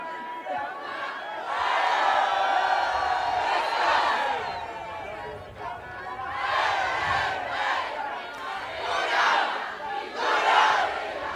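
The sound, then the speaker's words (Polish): A large group of pilgrims from Brzeźnio and Złoczew at Jasna Góra lets out a loud group shout, a massed roar of many voices that swells and dips in several waves. “no to musi być jakiś głośny okrzyk, żeby Jasna Góra usłyszała, że Brzeźnio i Złoczew dotarli tutaj do tronu matki.”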